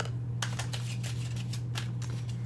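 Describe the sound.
Tarot cards are shuffled and drawn as a quick series of soft papery flicks and snaps, irregular and fairly faint, over a steady low hum.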